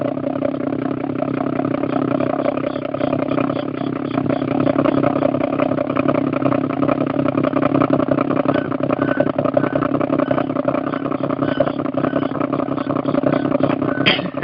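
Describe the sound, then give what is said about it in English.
A pump pumps sand out with a loud, steady, engine-like mechanical drone that holds an even rough tone throughout without pause. “That's probably the pump on whatever Kano's got going, pumping the sand out. And it makes a voracious sound.”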